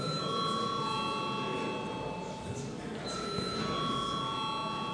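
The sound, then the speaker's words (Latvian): A bell rings before a vote in parliament, heard as two long stretches of sustained, shimmering tones over a steady background hubbub. “Lūdzu zvanu.”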